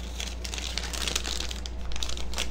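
A paper envelope is crinkled and opened, with continuous crackling and rustling over a low steady hum.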